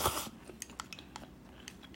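Soft chewing and eating noises from someone finishing somen noodles with dipping sauce: a brief louder burst at the start, then faint, irregular crisp clicks of mouth sounds with no talking.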